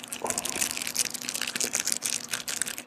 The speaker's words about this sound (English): If you don't mind, I'll get mine out of the cellophane.